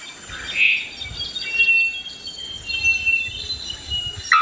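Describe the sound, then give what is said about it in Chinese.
A wattled bellbird gives a sharp, clanging metallic note early on and another near the end, bright and ringing like struck metal, over a steady faint insect-like hum. “肉锤中伞鸟的鸣叫声与众不同，这也是这种鸟名字的由来。它们的叫声就像是敲击金属发出的声音，在1000米外都能听得到。”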